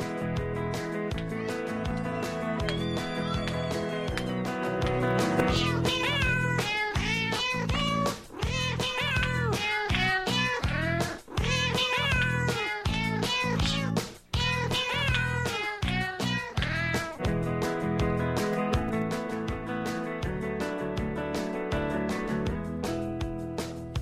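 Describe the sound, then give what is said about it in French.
Cat meows, many of them, rising and falling in long curved tones as a show's intro, layered over a steady, loud musical backing with no voices. “C'est impressionnant l'intérêt pour un intro de chat.”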